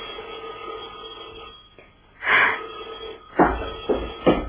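A telephone rings in a few short, bright bursts over a steady low hum, with no talk alongside.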